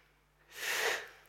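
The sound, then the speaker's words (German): A single deep inhale, a faint, airy rush of breath that swells and then fades over about a second, heard alone. “Tief einatmen.”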